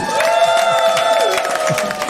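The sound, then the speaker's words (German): A canned applause effect triggered from a button, with clapping and cheering over a steady sustained tone, fairly loud and even across two seconds. “Drück den Applaus auf.”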